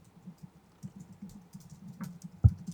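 Typing a web search on a computer keyboard produces soft, scattered key clicks at an uneven pace, faint overall, with one sharper tap near the end.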